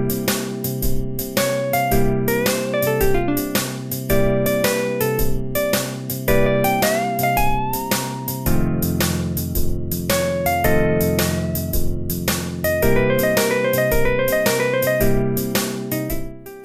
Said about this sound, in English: If you just tell the machine to do it at random, you end up with solos that sound like this.